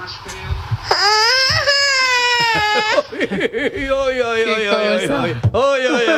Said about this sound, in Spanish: Tenemos el oyente más joven quizás que tenemos del programa. Ahí tenemos un sonido exclamativo diciendo qué bonito es este programa.